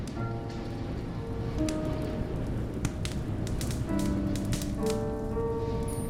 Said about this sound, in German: Das Holz im Kamin knackt.